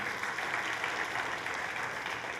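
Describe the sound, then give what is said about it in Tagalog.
A church audience applauds during a sermon, a dense, steady wash of many clapping hands that holds at an even level throughout. “Palakpakan natin ang ating Panginoon.”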